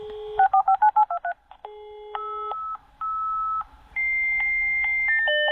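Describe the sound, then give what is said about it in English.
Dial-up modem connecting to the internet: a quick run of about seven touch-tone dialing beeps, then sustained electronic tones that hold and switch between several steady pitches. “I will recognise the dial-up sound, yes. The dial-up sound, correct.”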